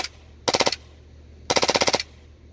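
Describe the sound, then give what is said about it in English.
An air-powered gun at about 90 PSI, fed from an M4 magazine, fires two rapid bursts of sharp, snapping shots. The second burst is longer, and a low steady hum fills the gaps between them. “Dude, that thing's awesome. Awesome. That is cool to be able to, you know, feed from M4 mag like that. Seriously. A lot more ammo.”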